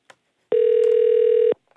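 A single steady telephone tone on a radio call-in line holds at one even pitch for about a second, then cuts off cleanly, with only faint background around it.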